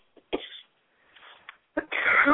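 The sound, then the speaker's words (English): A person gives a few dry coughs, short sharp bursts separated by brief pauses, then a longer rough, breathy burst at the end. Fairly quiet overall, with no clear speech. “Excuse me. It's a dry-ass cough now.”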